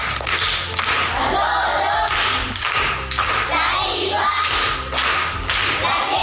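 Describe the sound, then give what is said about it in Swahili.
Applause for a contestant at a school quiz competition, a dense wash of clapping hands with some thumps and crowd noise, loud and sustained throughout with faint voices mixed in. “Makofi kwa shangazi.”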